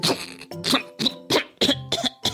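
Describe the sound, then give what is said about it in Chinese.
A rapid string of harsh, spluttering coughs follows choking on cold water during a swimming lesson, the sharp bursts coming in quick succession with short gaps. “哎呦，每次都会被冰冷冷的水呛到，很不舒服。”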